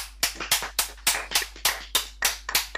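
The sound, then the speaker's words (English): A round of applause for footballer John Terry comes through as a steady, even series of sharp single claps, each one crisp, with quiet gaps between them. “And I think we should give him a round of applause”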